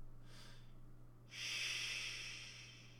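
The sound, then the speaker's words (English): Breathing: a faint short breath, then a longer, louder, airy exhale that slowly fades, with a steady low hum underneath throughout. “Just breathe.”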